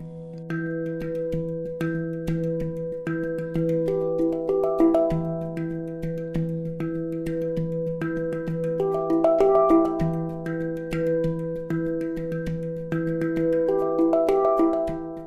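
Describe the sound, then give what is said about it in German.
A hang (handpan) rings out many melodic notes in an unhurried rhythm. Each tone is struck and sustained, so warm metallic notes overlap and blend into a steady, resonant flow. “Die erste Note von Hang, plötzlich gibt es ein anderes Gefühl ins Raum.”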